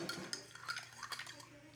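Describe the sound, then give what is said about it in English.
A spoon clinks lightly against a coffee cup as sugar is spooned in and stirred, giving a few quick, bright metallic taps and scrapes with no voices. “Oh, can I have that spoon right there? Yeah. I'm gonna give you some more. I'll put some sugar at the bottom of this.”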